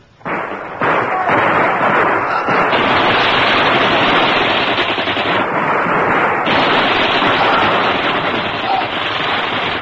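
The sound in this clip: Heavy gunfire in a dramatized rear ambush, a dense, loud volley of overlapping shots that roars almost continuously for nearly ten seconds with only slight dips in intensity.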